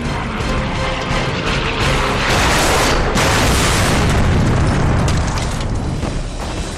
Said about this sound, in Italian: Il caccia si schianta al suolo con una violenta esplosione.